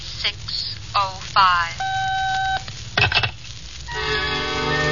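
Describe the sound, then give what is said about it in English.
Touch-tone keypad dialing of a telephone time service, a short run of electronic beeps lasting under a second. Voices are heard before and after it, and a steady hiss runs throughout. “I wasn't sure my watch was right, so I dialed for the correct time.”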